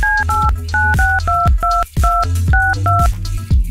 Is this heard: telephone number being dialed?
yes